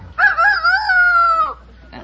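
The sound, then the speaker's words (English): A human voice imitates a rooster crowing with one drawn-out, high, wavering call. It holds for over a second and then breaks off, followed by quiet. “It's a rooster. Yours wasn't a rooster, huh? Mine was a hen.”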